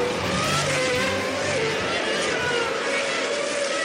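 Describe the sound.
Formula One race car engine as Verstappen overtakes, a continuous loud, high-pitched roar that holds steady for the whole stretch without breaks.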